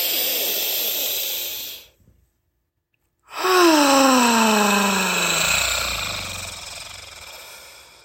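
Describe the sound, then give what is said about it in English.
Long, loud, airy breaths: a rush of air drawn in, about a second of silence, then another long breath carrying a voiced tone that slides down in pitch. “let's start off with a few deep breaths. All right. Inhale.”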